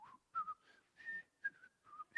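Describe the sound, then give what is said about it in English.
A person whistling a tune on stage, a string of bright, clear notes in short separate phrases that hop up and down in pitch, quiet and without talk. “It makes me want to start whistling, you know.”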